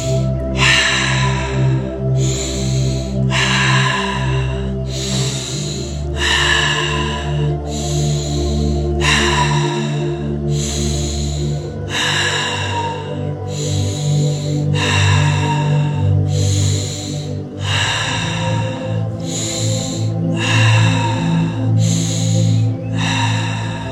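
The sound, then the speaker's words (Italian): Breathing exercise, a second set of thirty repetitions drawing air in through the nose and blowing it out through the mouth, as many loud, regular breaths over a sustained musical drone, with no talk. “adesso ricominciamo la seconda serie di 30 prendiamo aria per naso e lasciamo aria per bocca”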